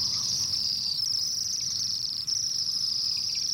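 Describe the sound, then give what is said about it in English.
A flock of Bohemian waxwings calls as a steady high-pitched trilling chorus while perched in a poplar beside apple trees in winter. The chorus is continuous and even, with a low rumble beneath it. “These are Bohemian waxwings.”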